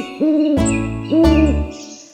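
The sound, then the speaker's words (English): Two sustained owl hoots from a mother owl living in a tree hole in a meadow. Each is a smooth, steady, fairly low tone lasting under half a second, separated by a short gap. “lives an old mother owl and her little owls three. Hoot, says the mother”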